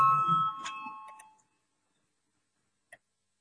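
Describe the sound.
A bell rung in parliament to call a vote gives a bright, sustained ringing tone with strong overtones that fades away over about a second and a half. A single faint, short click follows after the silence.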